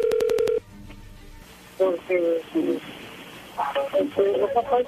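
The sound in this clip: Telephone keypad tones sound as a number is dialed, a quick run of about five short, evenly spaced beeps, followed by voices talking.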